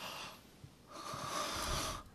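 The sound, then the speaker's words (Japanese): A deep breath drawn in sharply in surprise, close to a whispering microphone. A quieter stretch of soft breath noise gives way to one sustained, breathy hiss lasting about a second. “息を大きめに吸った、ブレス”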